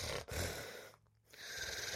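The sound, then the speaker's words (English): A voice imitates a snore with a rasping, breathy noise, a short pause, then another rough rasp. “Whenever someone fake snores, it's too overboard. You know, it's too like I just did. That's terrible. No one really snores like that. It's more like,”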